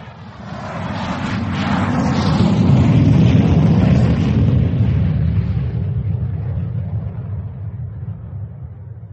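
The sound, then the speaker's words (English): Airliner taking off on a British Airways flight to Dusseldorf: a broad, deep engine roar swells over the first few seconds, holds steady and loud, then slowly thins and fades toward the end, with no voices. “Thank the good Lord, that's over. I always say a decade of the rosary on takeoff.”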